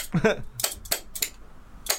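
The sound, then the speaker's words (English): Spoons played as percussion, giving a few sharp metallic clacks in a loose, uneven beat, with a voice heard briefly at the start. “We've got the spoons.”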